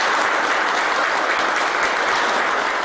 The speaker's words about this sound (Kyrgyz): Кол чабуулар узакка созулду.